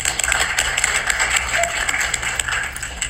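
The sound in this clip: Audience applause welcoming a speaker to a lecture: a steady patter of many hands clapping for about three seconds, with a low hum underneath.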